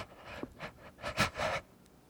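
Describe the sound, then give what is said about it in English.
Breathing as a person takes big, deep breaths in and out, a few soft, airy rushes of breath rising and falling in turn, faint and alone, with no talking. “Big breath in, big breath out.”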